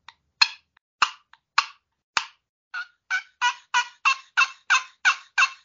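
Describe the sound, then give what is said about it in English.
Turkey yelps played on a scratch box turkey call, with a few scattered scratchy notes followed by a steady, evenly spaced run of about nine raspy yelps, clear and alone. “I won this scratch box turkey call, so I've been...”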